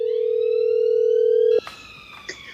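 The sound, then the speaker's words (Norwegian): A telephone tone on a call from the Nobel Institute director to a Ukrainian civil rights organization: one loud, steady, unbroken tone that cuts off abruptly, followed by a few faint clicks. “Like før klokka 11 hadde Nobelinstituttets direktør ringt Oleksandra Nomantsova i den ukrainske organisasjoners senter for sivile rettigheter.”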